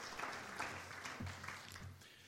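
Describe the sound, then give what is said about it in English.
Audience applause at a community event hosted by an elected representative, a faint, steady patter of many hands clapping that tapers slightly toward the end. “Why don't you give Brenda a round of applause? She put this thing together.”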